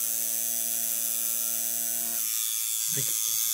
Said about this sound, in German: Wir hören deutlich die Maschine, wenn die Maschine unter der Haut ist. Ja, mach du mal, dann hört man das mal einmal hier für dich.